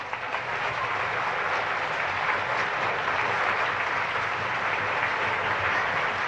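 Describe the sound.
An audience applauds an orchestra with steady, dense clapping that stays loud and even for about six seconds, with no break and no voices rising above it.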